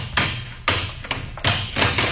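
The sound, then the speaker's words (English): Several heavy blows smash a lock on the door of a newspaper printing office, each hit a loud, hard thud with a crack of metal, coming in irregular succession. “Smash that lock.”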